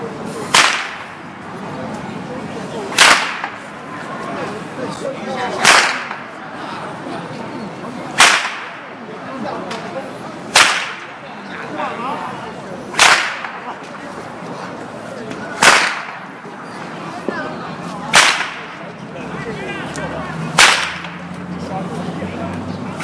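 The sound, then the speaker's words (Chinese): An old man in a park cracks a whip nine times in sharp, loud snaps. The cracks are spaced about two and a half seconds apart over a steady background hiss. “现在我们听到的声音是在公园里边一位老人他耍鞭子，啪，”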